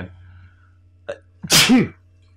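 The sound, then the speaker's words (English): A single sharp, loud sneeze bursts out after a brief catch of breath, heard alone over a faint steady hum. “first sneeze on the podcast.”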